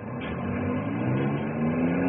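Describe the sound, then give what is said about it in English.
A loaded log truck pulls away, its engine a low, steady droning rumble at moderate level, the pitch edging slightly upward toward the end as it gets under way. “Truck's ready to roll. Well, tell the driver to take off, Henry. Okay, man. Take her away.”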